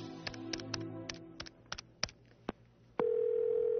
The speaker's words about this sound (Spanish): Antes de acostarme, y en previsión de que mi teléfono estuviera intervenido, marqué el número de la Cancillería Española.